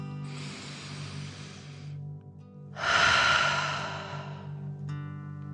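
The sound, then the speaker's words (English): A deep breath in and then out through the mouth in a guided breathing exercise meant to feel like breathing fire. A soft airy inhale is followed by a louder, forceful rushing exhale that slowly fades. “out through your mouth, imagining you are breathing fire. Ready? Deep breath in and out.”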